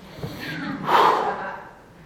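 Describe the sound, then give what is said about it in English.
A preacher audibly catches his breath mid-sermon: a short soft breath, then one louder, rushing gasp of an inhale that fades out, with no speech. “Let me catch my breath.”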